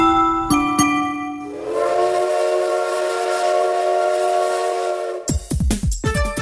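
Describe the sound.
Sound effect of a steam train arriving at a station: two sharp metallic clanks, then a loud, sustained, steady whistle lasting several seconds, followed by a quick run of rhythmic chuffing bursts.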